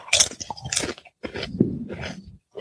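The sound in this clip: Crunchy rosemary snack bitten and chewed, producing several sharp, crackly crunches in quick bursts separated by brief pauses, with no talking.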